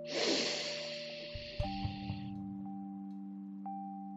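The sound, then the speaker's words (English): A slow inhale through the nostrils during a guided breathing exercise. It is a soft, airy hiss lasting about two seconds over a steady sustained tone, and the tone continues alone after the breath fades. “Breathe in through your nostrils and follow my lead.”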